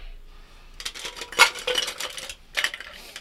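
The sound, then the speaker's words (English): Ice cubes clatter into a cocktail of tequila, crème de coco, coffee and egg white, a few bright clinking bursts of hard hits separated by short pauses. “All right, so I got the tequila in there. I got the cream de coco. I got some shit. Ground coffee beans. I got some coffee in there. And I got the egg white. Now to throw in some freaking ice.”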